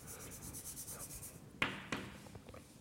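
Chalk scratches across a blackboard during a physics lecture. Faint, rhythmic strokes are followed by two sharp taps and a few lighter scrapes, all quiet.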